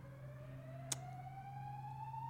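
A fire alarm goes off at an evening event: a steady electronic tone slowly rises in pitch over a constant low hum, broken once by a brief sharp click near the middle. It stays faint throughout.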